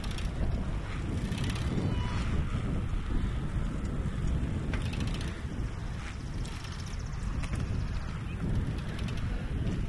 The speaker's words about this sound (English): Wow, where'd this wind come from?